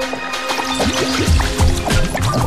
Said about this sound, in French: me pousse à saisir aux manches la première casserole venue. Puis, je la gorge d'eau.